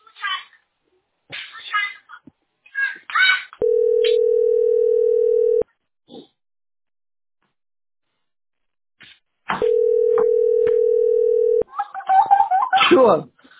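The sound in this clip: Telephone calling tone heard while a call is placed: two loud, steady, mid-pitched tones of about two seconds each, separated by a long silent gap, with voices talking before, between and after them.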